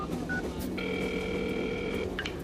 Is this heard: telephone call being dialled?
yes